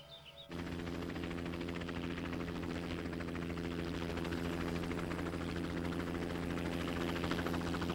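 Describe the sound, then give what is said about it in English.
A helicopter circles over a large log cabin in Alaska as it prepares to land. A loud, steady rotor and engine drone starts abruptly after a brief quiet moment and holds constant to the end. “A helicopter circles above a substantial log cabin. The stars and stripes and the flag of Alaska flutter in the breeze. The aircraft hovers above a wooden outbuilding and a utility vehicle as it prepares to land in front”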